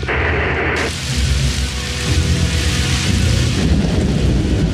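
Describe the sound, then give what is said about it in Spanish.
Heavy tropical rain pouring in a steady, dense, loud hiss with a low rumble underneath, continuous throughout and without voices. “Unos pies caminan lentamente bajo la lluvia tropical.”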